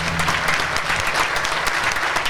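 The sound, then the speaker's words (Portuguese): A brief burst of dense applause follows a guitar solo. The clapping stays steady and fairly loud throughout. “Palmas para a Cadeota.”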